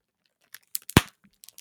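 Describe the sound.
Bubble wrap is popped and crinkled for ASMR: a few sharp, sparse pops and crackles with quiet gaps between them, one pop clearly louder than the rest.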